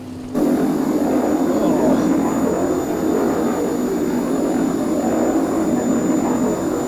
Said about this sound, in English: That must be the aircraft I just picked up.